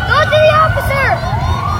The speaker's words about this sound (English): Some of the officers had to leave during the game as a call came in, and those were the sirens you could hear there in the background.